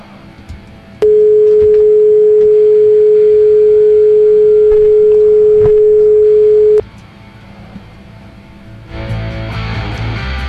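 A steady single-pitch telephone line tone sounds while a call is being placed, holding loud and unbroken for nearly six seconds before cutting off abruptly, leaving quieter background noise that later thickens into a louder hiss.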